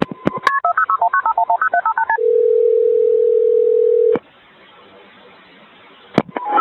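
Telephone keypad tones as a 911 emergency call is placed: a rapid string of beeping dial tones, then a steady held tone, then faint line hiss broken by a click and a few more brief tones at the end.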